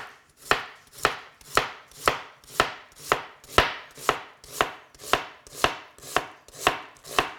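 Knife chopping an onion into long thin pieces for a beef and snow pea stir-fry: fourteen crisp, evenly spaced chops in a brisk steady rhythm, with no talking.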